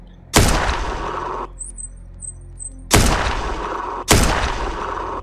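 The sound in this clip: Three gunshots fired behind a fence, each a sharp, loud crack with a short rumbling tail, separated by quiet gaps of uneven length.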